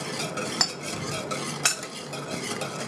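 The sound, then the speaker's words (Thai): Someone stirs a mixture in a container with a utensil, producing a steady soft swishing and scraping marked by two sharp clinks against the side. “แล้วก็คนไปสักพักหนึ่งนะคะ”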